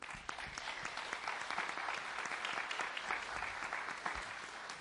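An audience applauds to welcome a visiting pastor at a church, with many hands clapping in a steady, dense patter that holds evenly throughout.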